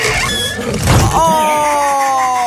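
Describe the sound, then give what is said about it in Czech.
A prize box opening in a radio money game, heard as a squealing, creaking effect that gives way to steady ringing tones held to the end. “Otevírám box Rádia Čas, který je plný peněz.”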